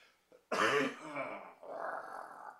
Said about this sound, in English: excuse me, I was tickling my throat again. Hang on.